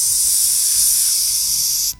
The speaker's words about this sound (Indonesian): Tadi ada suara ular, kok ini sepi sih kak?